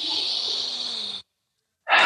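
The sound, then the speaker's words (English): A deep breath: a long, airy hiss of drawn-in air lasts just over a second, then drops to brief silence before a strong, breathy exhale bursts in at the end. “use this opportunity to take a deep breath right where you are”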